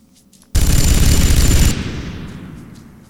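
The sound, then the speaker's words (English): A minigun fires in a video game: one loud, dense burst of rapid fire lasting about a second, then a rumbling tail that slowly fades. “Minigun, why not?”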